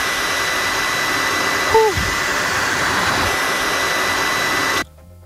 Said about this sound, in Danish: Det er en PlayStation 4.